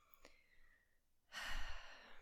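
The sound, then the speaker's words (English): A long, forceful exhale emptying the lungs during a 4-7-8 breathing exercise, breathy and loud, starting after a quieter opening and trailing off near the end. “maybe taking a little breath in and then just exhaling all the breath we have right now”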